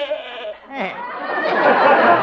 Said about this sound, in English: And then there's Arthur, my goat.